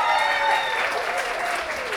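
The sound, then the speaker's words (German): Audience applause as a team is announced by start number at a team competition: dense, steady clapping that holds at an even level throughout, with some faint voices mixed into the crowd. “Applaus, Applaus.”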